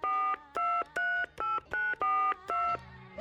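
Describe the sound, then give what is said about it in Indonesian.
Telephone keypad dialing tones from a stage drama, as a father calls his daughter at school abroad: a quick run of steady, evenly spaced electronic beeps, each a held two-pitch tone, alone with no voices. “Papi mah rek nelpon ka si Nyai, anak urang bukeur sakola di Singapura tea geuning.”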